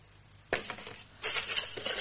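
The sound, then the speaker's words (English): A pot of competition draw entries is stirred, giving two fairly faint bursts of scraping, clinking rattle. “I'll grab the pot, give it a good stir and see who comes out.”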